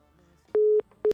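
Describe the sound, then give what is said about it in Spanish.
Telephone tones sound as a phone call cuts off: a steady, mid-pitched electronic beep holds for about a quarter second, then a shorter one follows after a brief gap, both clean and loud over near silence. “Algo pasa, o sea, justo cuando apenas la agarro, corta la llamada.”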